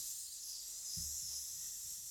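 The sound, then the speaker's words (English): A person hisses like a snake while thinking, a steady, sustained high hiss that fills the whole clip with no break, with a few faint low sounds beneath it. “I like how you became a snake whilst thinking about that.”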